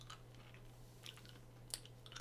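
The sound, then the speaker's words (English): Someone chews candy corn, faint soft crunching with a few sharper bites over a low steady hum. “Alright, our snack today is candy corn. I will eat some.”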